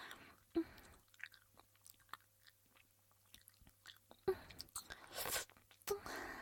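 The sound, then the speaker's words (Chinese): Faint, soft chewing and biting of a child eating chicken while being fed, with scattered small wet clicks and crunches and a few brief louder bursts in the quiet. “阿姨做的鸡肉，嗯，好吃呀，那就多吃一点”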